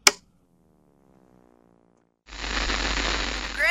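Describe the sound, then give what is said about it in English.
A television switching on gives a sharp click, then a faint, steady tonal hum, and after about two seconds a loud, continuous burst of hissing static that lasts to the end. “Mind if I turn on the TV?”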